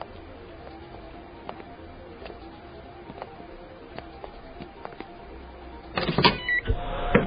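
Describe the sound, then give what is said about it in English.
A mechanical panel closes with a brief burst of whirring and rattling near the end, after several seconds of quiet, low background hum. “Let me just close this panel.”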